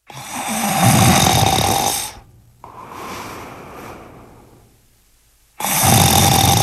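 Loud snoring in long rasping breaths: two heavy, roaring snores with a softer, breathier one between them, separated by short quiet gaps.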